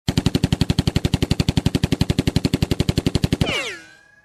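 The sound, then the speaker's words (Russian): Rapid gunfire attributed to a Colt .45 pistol: many loud, evenly spaced shots in a fast, steady burst, ending in a ringing metallic tail that falls in pitch as it fades. “Достал он свой кольт 45-го калибра и пристрелил Кощея в голову.”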